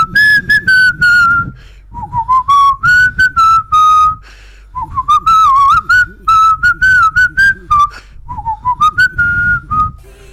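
A person whistles a lively tune alone, loud and clear, in many quick notes and short phrases, with brief pauses between phrases and some wavering, sliding pitches.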